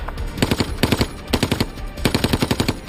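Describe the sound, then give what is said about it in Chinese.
A German machine gun firing about 900 rounds per minute in a street battle across a town square, loud, rapid bursts of sharp shots with brief gaps between volleys. “广场对面的一名德国机枪手挡住了他们前进的道路，从这个位置他能够击中广场上的任何一名美军士兵，机关枪每分钟能发射900发子弹”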